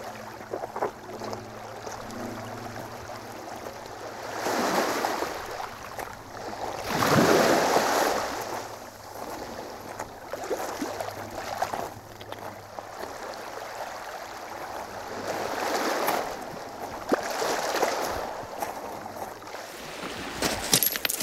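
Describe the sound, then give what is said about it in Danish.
Steady, soft rushing of a small trickling spring in wet, ditched and drained ground. The water sound swells and eases in several broad surges, with no voices. “En lille rislende kilde.”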